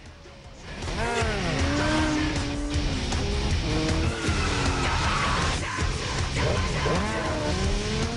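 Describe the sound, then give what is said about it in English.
Motorbike engines rev and whine as two riders circle each other, their tones sweeping up and down again and again over a steady low rumble, with squealing tires between the revs. “They wheelie into each other, bashing wheels. They circle each other astride their bikes.”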